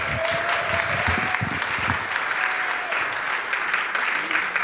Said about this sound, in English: please give a very warm welcome to our very own CSL practitioner